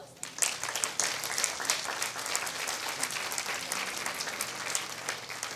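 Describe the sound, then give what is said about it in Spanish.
An audience claps loudly and continuously at a community anniversary gathering in Cherán marking years of struggle to defend its forests. The dense applause holds for several seconds, with scattered crowd voices mixed in. “Quisiera que le diéramos otro fuerte aplauso a los compañeros integrantes del Barrio Primero”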